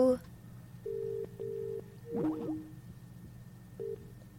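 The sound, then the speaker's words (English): Telephone ringing tone on a call line: a steady, fairly low electronic double burst, a pause, and a single burst starting again, with a brief warbling sound in the gap. “Oh, they're calling. They're already ringing.”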